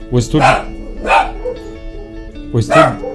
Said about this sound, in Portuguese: o estúdio da rádio, ela está em um sítio devido do som externo, né? E por segurança, tem cachorro no fundo, tem cachorro lá atrás, devido aos equipamentos todos.